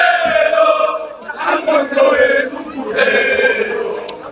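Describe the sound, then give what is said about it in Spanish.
Football fans chant in protest in the stands at a Mallorca match after the club's relegation, a loud mass of voices rising and falling in sustained, rhythmic sung phrases. “Es el tercer descenso del Mallorca con la propiedad americana. Es decir, esto no es casualidad. Y esto es lo que canta la gente.”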